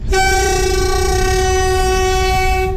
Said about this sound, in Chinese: 5月27号凌晨20时许， 蒙方军列缓缓驶入我国二连浩特国门。